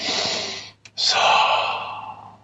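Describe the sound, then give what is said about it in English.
Deep, airy breathing during a guided meditation: two long breaths separated by a brief pause, the second drawn in fully and steadily. “Breathe into those hands right now through the center of your heart.”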